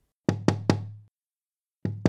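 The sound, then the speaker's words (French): Knocking: three firm, resonant knocks in quick succession, each with a short hollow ring. After a pause, two more knocks follow. “Toc, toc, toc.”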